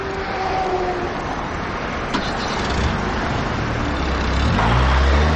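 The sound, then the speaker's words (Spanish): A car starts and drives away at full speed in a scene from the drama film Asfalto (2000). Steady road noise runs throughout, and a low engine rumble swells loudly in the last second. “Chino se pone las gafas de sol, arranca el vehículo y se marcha a toda velocidad.”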